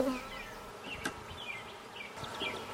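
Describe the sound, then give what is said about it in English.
Faint, steady buzzing of many honeybees around a monk's beehive, a soft continuous hum with no voices. “I don't really want to look for the queen. I assume she's there because there's a lot of bees,”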